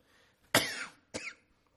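Two coughs with no talk: the first is longer and louder, and the second, after a short pause, is briefer and lighter.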